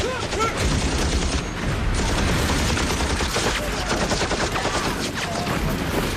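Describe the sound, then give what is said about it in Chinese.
Machine gun fire in a battle scene at a road junction: dense, continuous bursts of rapid gunshots, loud and unbroken throughout with no pause between volleys. “机枪，机枪，封锁那个路口，别让敌人跑了，快！”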